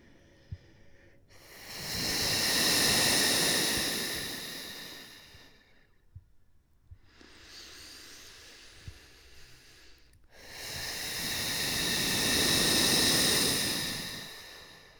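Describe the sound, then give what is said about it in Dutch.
Two long, hissing exhalations from a breathing exercise, blown through a widened mouth with the belly pushing. Each swells from soft to loud and fades back to soft, with a quieter breath between them. “Misschien kun je het horen. Je gaat van zacht naar luid naar weer zacht. Een uitademing gaat van zacht naar luid naar zacht.”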